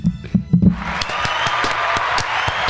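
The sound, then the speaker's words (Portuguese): Applause breaks out as scattered clapping over a dense wash of hiss, with sharp individual claps standing out through the last two seconds after a few low, thumping bursts at the start. “Palmas.”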